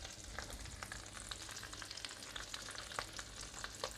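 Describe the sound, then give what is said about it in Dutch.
Sausages browning in a hot frying pan before they go into the oven. A steady bright sizzle is dotted with many small crackling pops, with no voices. “En nu kan ik eventjes eerst de worstjes aanbraden voordat ik dadelijk die... Eh, voordat ik ze dadelijk in de oven zet.”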